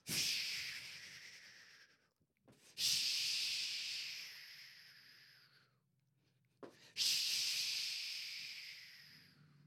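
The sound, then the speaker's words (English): A voice imitates the snort of a war horse with three long, breathy, hissing blasts. Each blast starts strong and fades over roughly two seconds, with brief pauses between them. “That word means it's the snort of the war horse.”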